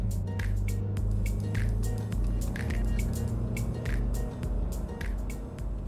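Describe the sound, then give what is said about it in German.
Car driving along a road in the far south of the Black Forest, a steady low rumble with broad tire hiss that stays at an even level throughout, dotted with faint clicks. “Vorbei an Titi und Schluchsee fahre ich in den äußersten Süden des Schwarzwaldes”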